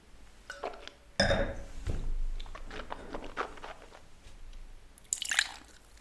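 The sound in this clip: Tasting of a bone-dry wine with fresh acidity and firm tannins, aged in partly new, partly used French oak, gives faint mouth and glass noises and a sharper airy burst near the end.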